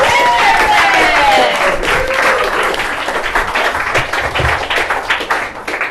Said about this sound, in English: This next comedian coming to the stage has a podcast called the Strawberry Cough Podcast. Start clapping now